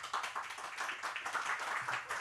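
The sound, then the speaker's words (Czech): Applause from the live audience at Radiokafé: a dense, steady patter of many hands clapping, fairly faint and unbroken throughout. “Vizitky, která je z Radiokafé, tedy je to ta jedna z těch vizitek, kterou máme z tohoto prostoru i s naším publikem, které se vám teď přihlásí také potleskem.”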